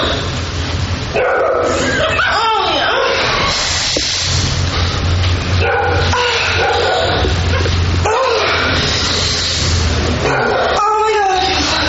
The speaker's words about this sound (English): Fucking dog barking.